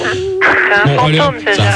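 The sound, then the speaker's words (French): A person imitates a buzzing fly with their voice: a loud, nasal, wavering buzz that comes in several bursts, its pitch shifting up and down between them. “celui qui s'amuse à faire la mouche, priez d'arrêter parce que”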